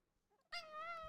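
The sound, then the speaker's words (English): A grumpy male cat gives a single drawn-out meow that starts abruptly and rings with strong harmonics, complaining and moderately loud with nothing else heard. “Mr. Grumpy Pants here. Oliver the cat not having it.”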